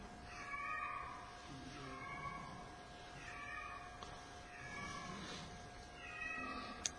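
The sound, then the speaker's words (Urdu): A cat meowing repeatedly, several drawn-out, wavering calls spaced a second or so apart. The calls are faint and sit over a soft, steady background hiss, with no voices. “بلی کو چپ کرانے جا رہے ہیں. اللہ عجیب بات, وہ چپ ہو گئی ہے.”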